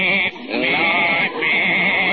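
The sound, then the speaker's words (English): A goat bleats in a courtroom, one long, loud, wavering cry that runs through nearly the whole clip and dips only briefly. “I got my goat here”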